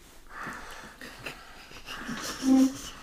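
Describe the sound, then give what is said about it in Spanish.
A voice imitates a horror film villain's heavy, rasping breathing: a few slow, wheezy breaths that grow louder toward the end, with a brief voiced tone at the peak. “Porque ¿verdad? Jason no habla. Pero respira.”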